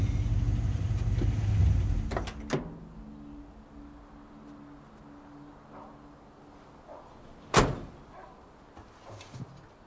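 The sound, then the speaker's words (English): A car pulls off a two-lane highway into a paved driveway and stops under a carport, its low engine rumble ending after a couple of seconds, followed by a few sharp clicks and a later single knock amid quiet. “Ed pulls off the two-lane highway into a paved driveway. He stops under a carport in front of a house with green wood siding and brown shutters.”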